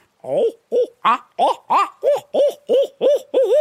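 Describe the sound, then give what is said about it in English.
An owl hooting call, used to fire up turkeys, runs as a rhythmic series of about ten clear, wavering hoots that grow steadier toward the end, with no talk. “if you get two or three owls, I know you've heard two or three owls come in. Yeah. That really gets a turkey really fired up.”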